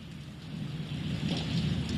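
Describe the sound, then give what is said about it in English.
Rain falls outdoors during a storm at a flooding shopping plaza in Anderson, Indiana, a faint, continuous hiss of water that swells slightly toward the end, with no talk. “it is still raining here in Anderson”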